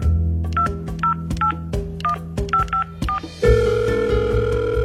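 Someone dials a telephone number, producing a quick series of short electronic keypad beeps at an even pace, followed by a steady continuous tone.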